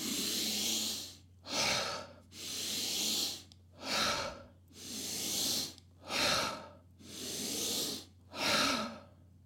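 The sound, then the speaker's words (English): Deep breathing exercise, slumping forward on each out-breath and lifting the head and chest on each in-breath: four cycles of long airy breaths alternating with shorter, sharper ones, in a steady rhythm over a faint low hum. “I let myself sort of slump down forwards when I breathe out. And then when I breathe in, I'm sort of lifting my head up and sort of raising my chest up.”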